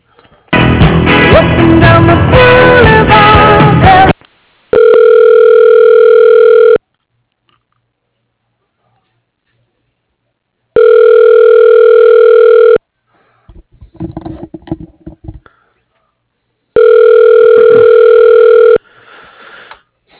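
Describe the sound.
Ringback tone on a telephone line while a caller is transferred to voicemail: a short burst of hold music, then three loud, steady two-second tones separated by long silent pauses, with faint clatter in one gap.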